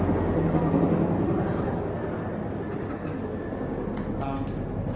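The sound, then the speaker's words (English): A rescue helicopter flies overhead, making a loud, steady, low rumbling drone that fills the whole stretch and eases slightly partway through. “That's the helicopter that rescued Pete last week.”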